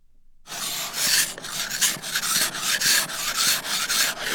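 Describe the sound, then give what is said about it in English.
Ice scraped off a car windshield in a Colorado winter: after a moment of silence, many rough, raspy scraping strokes follow one another in a steady back-and-forth rhythm, loud and alone. “One of the sounds of a Colorado winter, you have to get the ice off your windshield before your day can get started.”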